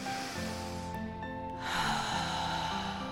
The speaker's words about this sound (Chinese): 感觉像一个波浪一样的允许它。吸，吐，非常好，请继续。